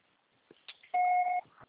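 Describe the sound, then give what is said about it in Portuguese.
Answering machine beep signaling the start of a recorded message: one steady, clear electronic tone lasting about half a second, preceded by a few faint soft clicks and followed by quiet. “grave seu recado. O seu só será tarifado após o sinal.”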